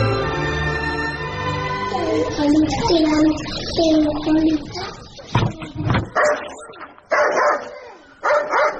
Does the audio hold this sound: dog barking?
yes